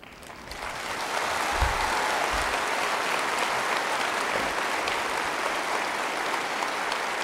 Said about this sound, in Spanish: muchas gracias por esas palabras de acogida benevolentes y por su aplauso.